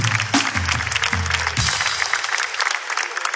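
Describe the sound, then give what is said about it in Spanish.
Audience applause at a comedy show: a dense, steady clatter of many hands clapping, with brief low voices mixed in at the start. “Un aplauso para la chica con cólicos sangrantes.”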